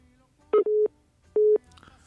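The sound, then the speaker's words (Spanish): Telephone tones as a call is placed: one brief electronic beep and then two longer ones, all steady and mid-pitched with gaps of near quiet between them. “Ya nos dejó en espera, ahora sí ya está marcando.”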